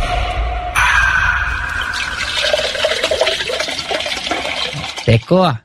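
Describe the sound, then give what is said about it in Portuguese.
A glass bottle of soda is opened and poured: a sudden hissing release gives way to a running, fizzing splash of liquid, ending with a couple of louder, resonant knocks. “Vai ser uma gasosa. Nossa, é de aquelas de garrafa, né? Abre uma aí, então.”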